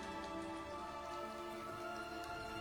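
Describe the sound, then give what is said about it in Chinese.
Steady rain falling, a dense continuous patter of drops with no pauses, heard alone with no voices. “那一刻雨声消退，天地寂静”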